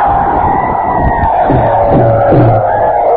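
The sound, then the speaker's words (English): A crowd roars its welcome in the American Legion Auditorium in Winter, South Dakota, a loud, sustained wash of cheering and shouting that holds steady from start to finish. “And here's a roar of welcome from the pheasant hunting paradise of the USA, Winter, South Dakota.”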